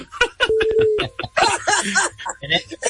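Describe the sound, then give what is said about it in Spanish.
A short, steady telephone tone signals a call arriving on the call-in line of a Dominican sports radio show. It rings once, mid-pitched and lasting about half a second, among overlapping lively talk. “tenemos una llamada. Buenas tardes.”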